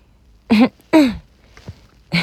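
A few short, throaty voiced coughs, deliberately produced like a cough echoing through a classroom. They come as loud separate bursts with no talk between them, and one falls in pitch.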